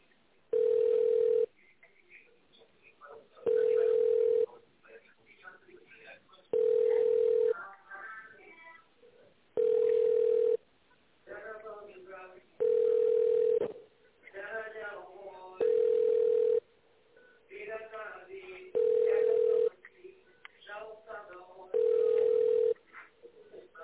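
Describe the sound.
Telephone ringing tone while a call is transferred to another department: eight evenly spaced, steady mid-pitched tone bursts, each lasting about a second and a half, with faint voices murmuring in the gaps between them.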